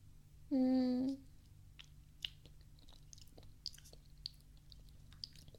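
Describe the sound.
Soft chewing while tasting a sweet dish made with brown sugar: a few faint, scattered crunchy clicks after a brief steady tone near the start, all quiet.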